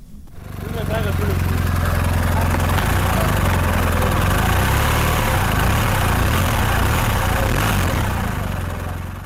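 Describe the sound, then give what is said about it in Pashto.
A motorcycle engine runs with a loud, steady, rough low drone that fades in, holds unbroken throughout and tapers slightly at the end. “د ضیاءالدین شینواره د موټر سایکل په شور پیلېږي”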